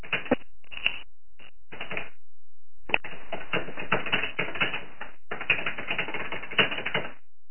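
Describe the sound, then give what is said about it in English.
Computer keyboard keys clatter as a poll question is typed, starting with a few short bursts, then a brief pause before long runs of rapid, irregular keystrokes. “Let me formulate a question then to do a little poll. And I'm gonna type it into the box here.”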